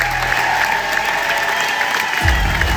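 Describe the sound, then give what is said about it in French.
Theatre audience applauding at the curtain call as a singer and actor takes his bow. The clapping is thick and sustained, and a low rumble swells near the end. “les applaudissements sont particulièrement nourris. Main sur le cœur, le chanteur et comédien semble ému par tant de soutien.”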